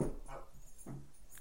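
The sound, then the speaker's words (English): A pet dog gives a few faint, short barks with a whimpering edge, spaced unevenly over a low background hum. “that's my dog.”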